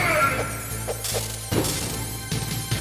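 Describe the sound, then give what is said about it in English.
A chaff grenade goes off in a video game with several sharp crashing, whacking bursts over continuous game background sound. “It's just chaff grenade. I wonder what that does. Can I do anything? Oh, there we go.”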